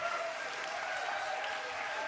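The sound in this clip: Audience applause for a hardcore band: a faint, steady wash of many hands clapping that holds at an even level throughout.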